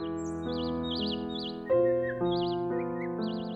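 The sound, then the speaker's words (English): Robin singing in a tree: repeated high, warbling whistled phrases in a regular rhythm, heard over soft sustained musical chords that shift pitch. “At that moment, Mary heard a robin singing in one of the trees above her.”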